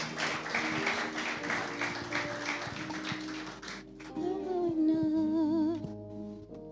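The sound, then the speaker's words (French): A church audience claps in dense, steady applause for several seconds, then the clapping thins out as sustained music and a wavering sung tone take over. “Put your hands together for Jesus. Acclamons ensemble le Seigneur.”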